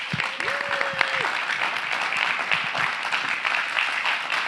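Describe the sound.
Church audience applauding as a visiting team is welcomed during a Sunday morning service: a steady wash of clapping throughout, with a brief sustained cheering voice rising over it early on.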